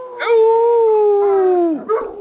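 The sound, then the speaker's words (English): A dog gives one long, sustained howl that holds a steady pitch, then drops sharply at the end, followed by a short, higher yelp. “And if she don't need it, she starts barking.”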